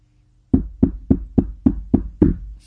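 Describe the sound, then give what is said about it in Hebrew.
Seven evenly spaced knocks on a door, sharp dull thuds in a steady, unhurried rhythm, each one ringing briefly before the next. They are firm and heard alone, with no voices. “מקיש בדלת.”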